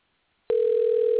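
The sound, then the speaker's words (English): A telephone dial tone sounds while someone redials a dropped call: a loud, steady, unbroken single-pitched hum that starts abruptly after a short silence and continues evenly. “Let's see if I can call him back. I'm going to dial him. Let's see what happens.”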